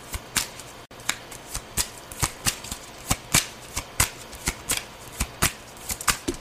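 Tarot cards are being shuffled: many crisp, papery riffles and slaps come in a fairly steady rhythm, with no talking.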